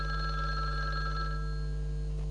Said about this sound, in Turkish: Şöl telefonu alasanız da!